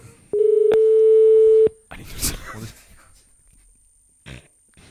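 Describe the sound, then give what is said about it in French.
A single steady telephone ringing tone sounds as a call is placed. It holds one pitch for a little over a second, then stops and gives way to voices talking. “Bon, on va appeler Jean-Marie, c'est parti.”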